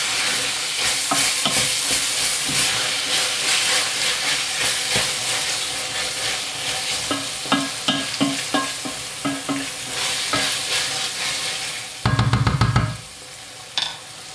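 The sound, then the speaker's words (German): Meat, onions, tomato paste, spice powder and lard sizzle in a pot: a loud, continuous frying hiss with stirring scrapes and clicks. A short, louder burst of sizzle comes near the end. “das brutzt jetzt hier vor sich hin mit dem Pulverchen drin, dem Tomatenmark, das Fleisch und die Zwiebeln und das Schmalz”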